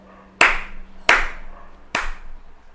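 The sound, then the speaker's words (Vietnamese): Three sharp hand claps in approval, evenly spaced and fairly loud, each with a quick bright snap and no voices around them. “Bạch Cẩm Hy thầm vỗ tay tán thưởng Châu Tiểu Triện.”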